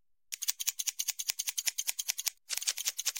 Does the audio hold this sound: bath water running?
no